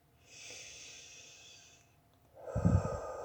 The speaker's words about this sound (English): take a nice deep breath in